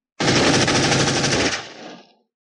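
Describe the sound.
Machine gun fire as an audio-drama effect, a weapon sprayed wildly at monsters all around: one dense, loud burst of rapid shots lasting about two seconds, then a rumbling tail that fades out. No voices.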